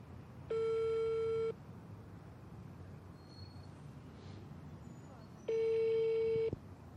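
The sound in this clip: An unanswered call to a building residents' association over a lift stoppage produces a telephone ringing tone. Two one-second tone bursts sound about four seconds apart over a faint hiss.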